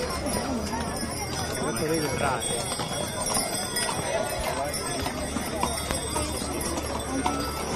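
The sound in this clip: Hooves clip-clop as a horse-drawn cart moves along in a procession toward a chapel of the Virgen del Carmen. Steady hoof beats continue throughout under constant talk and crowd chatter.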